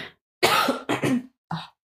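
A short fit of dry coughs from a woman who has just choked, several abrupt bursts separated by brief silences, the last one fainter and shorter.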